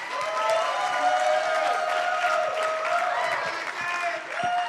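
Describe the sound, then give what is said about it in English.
An audience applauds to welcome a performer onto the stage at a fine arts showcase. Dense, steady clapping fills the whole clip at an even loudness, with a held tone sustained beneath it. “Join me in putting your hands together to welcome her, Lexi Hersey.”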